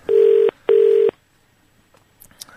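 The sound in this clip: Telephone keypad dialing tones: two loud, steady beeps of about half a second each, separated by a short gap, followed by near silence with faint, brief clicks.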